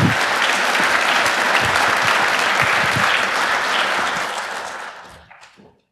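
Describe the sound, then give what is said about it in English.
Audience applause at a hacker conference talk: dense, sustained clapping from a large crowd that holds steady, then thins and fades out near the end. “please give them a warm round of applause”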